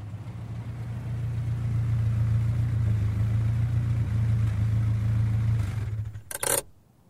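A car engine runs with a steady low hum as the car pulls up to park on an empty street. The engine then cuts off near the end, followed by a brief clattering sound.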